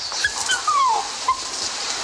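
A dog whimpers while being treated for fleas, giving a few thin, high whines, including one longer cry that slides downward, over a steady background hiss.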